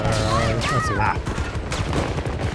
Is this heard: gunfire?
yes